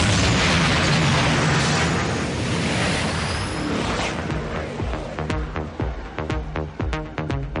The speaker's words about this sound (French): Propulseur opérationnel. Mise à feu dans 5 secondes. 5, 4, 3, 2, 1. Mise à feu.